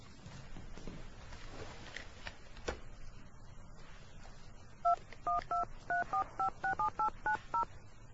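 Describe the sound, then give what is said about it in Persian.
A telephone number is dialed in a quick run of many touch-tone beeps, each a short two-toned pip. Soft rustling and shuffling come first, before the dialing begins. “امین دفتر تلفن رو پیدا میکنه و با تلفن شماره دایی رو میگیره.”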